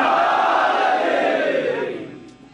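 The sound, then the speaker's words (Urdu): A crowd at a religious sermon shouts the Nara-e-Takbir slogan together, one loud sustained shout that holds briefly and then fades away over about two seconds. “تو آئیے برابر میں نعرہ لگاتے ہیں, نعرہ تکبیر, نعرہ رسالت, نعرہ حیدری.”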